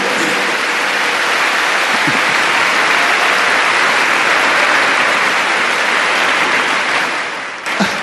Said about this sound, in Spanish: Pero que aplaudan, que me gustan los aplausos.